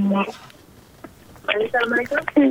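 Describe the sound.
A telephone call connects on a radio call-in show, with a brief steady phone tone at the start, followed by a pause and then a voice speaking.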